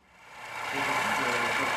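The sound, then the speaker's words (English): A Leica laser scanner, white and boxy, whirs as it spins on a tripod at Lviv Polytechnic National University in western Ukraine. A steady mechanical hum swells over the first second, then holds loud and even. “That's the sound of a high-tech Leica laser scanner at the Lviv Polytechnic National University in western Ukraine. It's white and boxy and spins on a tripod as it maps its surroundings.”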